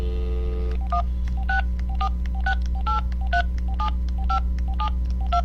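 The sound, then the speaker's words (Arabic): Touch-tone dialling of a telephone number: a brief dial tone gives way to a steady sequence of many short, evenly spaced keypad beeps of varying pitch, with no talk. “الآن نتصل بالشيخ عدنان”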